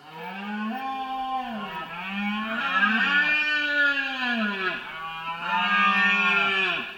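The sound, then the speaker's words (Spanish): Deer bellowing during the rut: several long, loud, low harmonic roars that overlap one another and arch up and down in pitch, with no talk. “Puede ser la impresionante berrea de los ciervos,”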